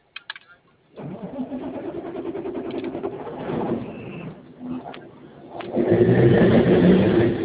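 A vehicle engine starts after a couple of brief clicks, switched on to test a remote engine-lock cutoff, then settles into a rough, steady rumble that grows louder toward the end.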